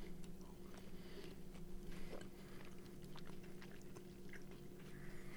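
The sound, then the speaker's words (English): Crisp biting and chewing of a crunchy honey-flavored snack, many sharp snapping crunches in an irregular rhythm over a steady low hum, with no voices. “Eat some. The texture's a 4. Yeah. It's the same texture as the other one. It's good. Good snap.”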